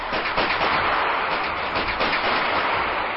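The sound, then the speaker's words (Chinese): Rapid gunfire from a gun emptying 27 rounds in quick succession into dense woods: many loud shots blur together into a steady, dense crackle across the whole clip, with no voices. “保罗一生气，连续发射出27个子弹，”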